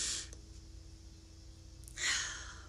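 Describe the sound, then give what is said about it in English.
A person takes a deep breath: two soft, airy breath sounds, a short one at the start and a longer one near the end, separated by a near-silent pause. The whole clip is faint. “can we just take a deep breath?”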